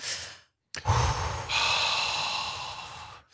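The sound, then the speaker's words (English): A deep cleansing breath taken together by a group, heard as a loud breathy rush that starts abruptly after a brief silence and holds steady for about two and a half seconds before cutting off, with no talking. “we're going to all join together and hold hands and take a collective cleansing breath.”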